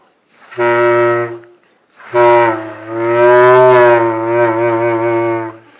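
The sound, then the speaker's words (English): Honking, moo-like tones from blowing into a Glovophone, a rubber glove fitted to a tube: a short steady blast, then a longer one that wobbles in pitch, both loud and heard alone. “This product I'm going to demonstrate for you is a RAFT activity to teach sound. It's called the Glovophone because it uses a rubber glove and a tube. And if I blow into the end, you can hypothesize what you think is going to happen.”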